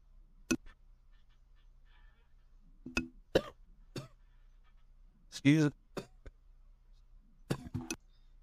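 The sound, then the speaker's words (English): Harsh, hacking coughs from a man, several sharp bursts spread across the stretch with brief vocal sounds between them. “Excuse me. He's going to make it. Excuse me. Wow, what a cough.”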